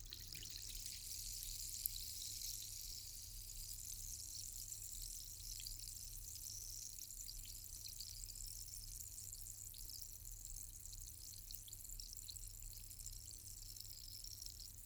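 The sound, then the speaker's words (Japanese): An effervescent tablet fizzes in water with a soft, steady hiss and a fine crackle of tiny popping bubbles. The sound stays constant throughout, with no talk. “優しい炭酸の泡がはじける音、聞こえますか？”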